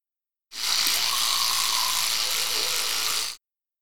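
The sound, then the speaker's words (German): An electric toothbrush running in a steady high, buzzing whir for about three seconds, starting and stopping abruptly with nothing else heard. “Elektrische Zahnbürste.”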